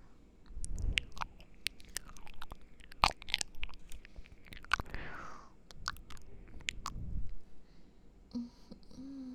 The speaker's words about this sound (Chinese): 尝尝我旁边给我做的早餐，好吃。张嘴，我来喂你。